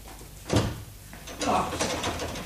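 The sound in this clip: A locked bedroom door's handle is rattled in two distinct bursts, each a brief metallic jiggle and clack of the latch against the frame.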